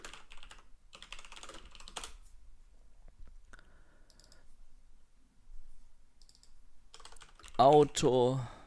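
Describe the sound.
Typing on a computer keyboard: bursts of quick, light key clicks separated by quiet pauses, with a voice speaking briefly near the end.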